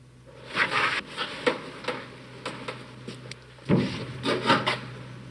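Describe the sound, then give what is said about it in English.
A hand pats and feels its way along a partition, making many soft taps and brushing rubs in an irregular rhythm. A denser burst of rubbing comes near the end, and no voices are heard. “He steps forward and pats the partition. He feels his way along till he can go no further.”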